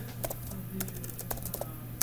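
Keystrokes on a computer keyboard as unit-test code is typed. Scattered, fairly light clicks come at an uneven pace over a steady low hum.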